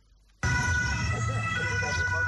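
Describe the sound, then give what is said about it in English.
A national security traffic police patrol siren on public roads starts abruptly after a brief near-silence, then holds a loud, steady tone with a rumble beneath it. “Their patrols are generally signaled by their siren.”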